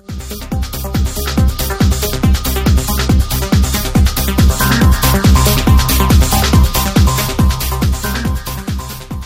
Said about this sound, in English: What I have been playing for some time now is a very up-tempo transition that sounds like this.